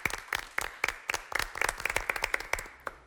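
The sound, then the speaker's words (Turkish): Audience applause at a quiz show, as the crowd claps for a late, celebrated film actor: many sharp, quick hand claps in a fairly faint, steady patter lasting about three seconds. “Büyük ustayı önce alkışlayalım.”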